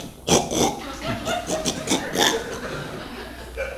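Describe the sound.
A voice imitates the grunting of a wind-up toy wild boar with many short, rough snorting grunts in quick succession, then a pause before one last grunt.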